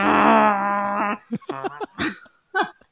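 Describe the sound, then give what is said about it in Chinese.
A person imitates Ashtanga yoga breathing with a drawn-out, voiced, groan-like exhale lasting about a second, followed by a few shorter breathy vocal bursts. “那个是我在呼吸，好不好？阿斯坦加瑜伽就是要这样的呼吸。”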